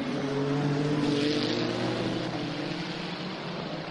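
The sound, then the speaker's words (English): A race car's engine drones steadily as the car leaves the pit box and heads back out to rejoin the race, a moderate, even whine with no voices. “They're in and out of the pit box quicker than you could pick up a drive through McDonald's there. Now heading back out to rejoin the race.”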